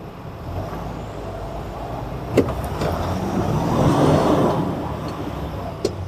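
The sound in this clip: A Unimog truck driving off-road and getting stuck: a steady low engine rumble that swells and then eases, broken by a couple of sharp clicks.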